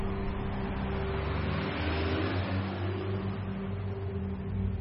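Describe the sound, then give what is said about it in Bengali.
A car's engine drones low and steady as the car moves off again, an even, constant hum with no breaks or talking. “গাড়ি আবার চলতে শুরু করল।”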